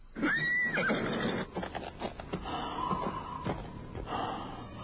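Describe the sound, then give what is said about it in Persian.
A horse whinnies loudly at the start, a high wavering neigh, followed by snorting breaths and rough, irregular thuds and rustling that continue to the end. “شبلی بر اسب می نشیند و می تازد به سوی کوفه.”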